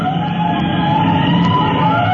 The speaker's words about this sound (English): two men sitting in a lightly built roadster hear the siren blocks away.